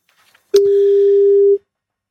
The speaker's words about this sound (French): je vous propose maintenant un petit coup de fil. Allez, tentons le coup, je te laisse faire le numéro B, on va voir ce que ça donne avec Philippe.